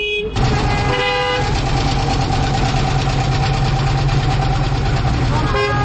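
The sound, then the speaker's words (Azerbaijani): Cars and trucks squeeze both ways through one narrow lane past roadworks where the asphalt is dug up to lay a water main. Engines rumble and idle steadily, with horn toots early on. “hər iki tərəfə gedən maşınlar balaca dar bir yoldan keçir”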